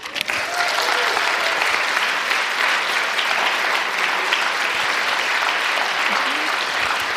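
Audience applause for panel guests: a loud, dense, continuous patter of many hands clapping that stays steady throughout with no clear breaks.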